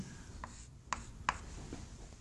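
Faint scratching of writing on a board, a few short, sharp strokes spaced apart against a quiet background, with no talk over them.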